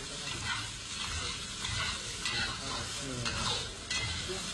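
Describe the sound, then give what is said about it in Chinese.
Chili, blood tofu and garlic leaves are stir-fried in very hot oil, giving a continuous loud sizzle with scraping stirs throughout. “快速加入辣椒、血巴、大蒜叶，翻炒均匀。”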